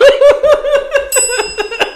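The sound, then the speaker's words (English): A bell rung in rapid, repeated strikes, many bright dings about four per second over a sustained ringing tone. The sound is loud and continues throughout. “Ring that bell.”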